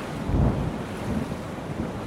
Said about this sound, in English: Except the vessel barely made it out of the harbor before it met a fierce storm.